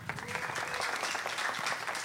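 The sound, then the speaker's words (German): Applause from an audience at a live event: dense, continuous clapping that stays steady and fairly loud for about two seconds. “Ein Applaus für die fünf Kinder.”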